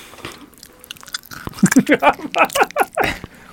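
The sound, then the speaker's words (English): Chips crunched close to the microphone: after a quiet start, many loud, sharp crunches come in rapid, irregular succession. “But you're going to keep eating the chips. Yeah, they taste great. They are a good like tasting cocaine chip. With that being said, it does ruin the audio.”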